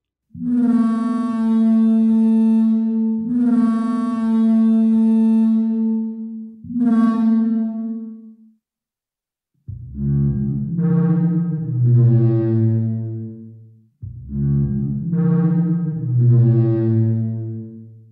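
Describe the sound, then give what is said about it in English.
Simulated Parasaurolophus crest horn calls, deep resonant honks rich in overtones. A few long, steady calls come first, and after a short silence a few lower, wavering moans follow. “sweet Parasaurolophus sounds. So here's our best guess of what those horns may have sounded like, according to the good folks at the Sandia National Laboratories and the New Mexico Museum of Natural History and Science.”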